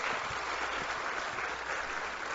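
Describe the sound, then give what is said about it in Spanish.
Faint applause from an audience for a speaker at a public address, a steady dense patter of clapping that continues without pause throughout. “Yo creo que eso merece todo nuestro reconocimiento y todo nuestro aplauso.”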